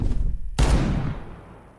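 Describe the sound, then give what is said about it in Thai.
A hunter's rifle shot: one sharp, loud crack followed by a long tail that fades out gradually. “กระดิกนิ้วเหนี่ยวไกปล่อยกระสุนออกจากลำกล้อง”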